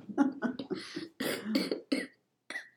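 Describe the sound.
A person coughs repeatedly from allergies: a run of harsh, throaty coughs in quick succession, loud and close together, then a short pause before a final cough. No one talks over it.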